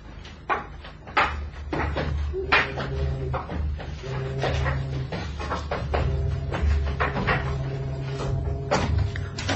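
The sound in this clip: A door is opened, heard as a string of clicks, knocks and rattling creaks spread over about ten seconds at moderate loudness, with a low hum running underneath.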